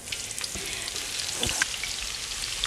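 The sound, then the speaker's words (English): Leek pieces frying and browning in a hot pan over fairly high heat give off a steady, even sizzle with scattered tiny pops and crackles throughout, and no voices. “let's take one piece of our leek and see if it's ready. I think it's time. You hear it cooking?”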